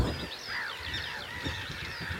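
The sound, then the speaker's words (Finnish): A flock of barnacle geese honks as it flies over a forest in the early morning, with many faint, overlapping high calls against a steady noisy background. “Hanhiletka. Valkoposkihanhilta näyttää tästä nopeasti katsottuna.”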